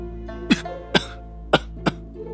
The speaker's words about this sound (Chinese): 唐枕低低地咳嗽了两声